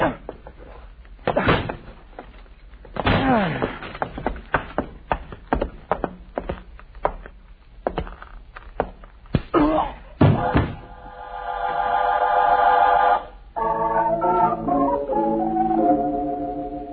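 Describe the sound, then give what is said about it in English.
A locked door is forced open in several heavy, wooden bangs and slams, spaced irregularly, with a loud crash near the end and sustained tones following. “Locked. I have to break in. I hope there's no fire.”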